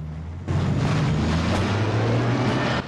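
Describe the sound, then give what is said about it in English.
Lorries rumble away from a set of traffic lights. A loud, low engine drone begins abruptly after a brief quieter moment and holds steady, with a broad roar above it. “The lorries rumble away.”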